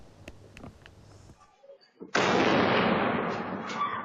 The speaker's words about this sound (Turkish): Önce patlama sesi geldi.